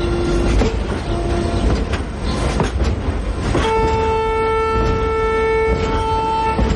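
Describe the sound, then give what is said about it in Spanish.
A train starts moving and pulls out of a station, with a steady rumble and clatter throughout. A sustained high, steady tone like a horn or whistle joins in the second half. “El tren de Vicky comienza a moverse y sale de la estación.”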